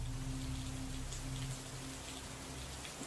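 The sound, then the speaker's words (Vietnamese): Heavy rain pours down over a village in a dense, steady hiss that stays loud and even throughout, with no voices. “Mưa trắng trời, mưa vũ vã, mưa giằng xé từng cơn.”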